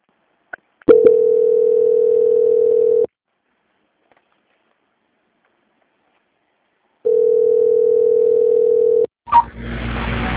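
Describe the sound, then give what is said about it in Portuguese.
Telephone line tone during a call transfer: a steady mid-pitched tone sounds in two long, even bursts separated by several seconds of silence, then a short crackle of line noise. “aguarde a linha que eu vou transferir a ligação para o controle de qualidade que dará andamento à contratação da sua renovação de consignado”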